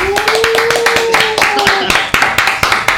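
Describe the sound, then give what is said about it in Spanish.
An audience applauds to welcome a guest onto an interview show, with many sharp hand claps in an uneven patter over a held tone, the claps growing more distinct toward the end. “Quiero recibir con un fuerte aplauso”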